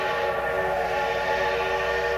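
A train sound, loud and unbroken from start to finish: a continuous rumbling drone carrying a sustained tonal whine.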